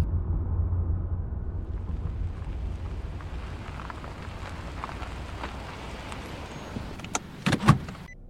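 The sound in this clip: A car driving and pulling over: a steady low road and engine rumble throughout, with a few short clicks and a heavier thump close together near the end.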